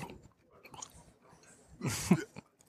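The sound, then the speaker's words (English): Wet chewing and mouth noises from someone working through an oversized single bite of food, soft smacking and clicking at first, then a louder, mouthy burst near the end. “all the people that hate eating on the show are so triggered right now.”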